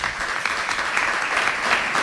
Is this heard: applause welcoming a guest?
yes